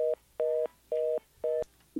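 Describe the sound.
Telephone line tone after a dropped call: a mid-pitched electronic beep pulsing on and off in an even rhythm, about four tones in two seconds, alone and fairly quiet.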